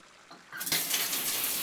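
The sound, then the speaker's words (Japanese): Hot water from a shower poured over someone's shoulders and belly: a short quiet lead-in, then a sudden hissing spray that runs on steadily and fairly loud. “じゃあ肩のあたりからお腹に向かってお湯をかけていくわよ。”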